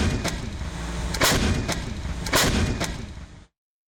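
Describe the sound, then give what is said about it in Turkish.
A Panter howitzer with a 27-round ammunition capacity fires during a military exercise: two heavy booming blasts stand out among several sharper bangs over continuous rumbling, before the sound cuts off abruptly. “Panter obüsü 27 adet mühimmat kapasitesiyle kesintisiz ateş gücü sağladı.”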